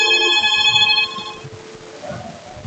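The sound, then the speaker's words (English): A telephone ringing with an incoming call to a radio station: one bright electronic ring tone lasting about a second and a half, then cutting off into faint low background noise. “Hey, we got a caller. KJTX.”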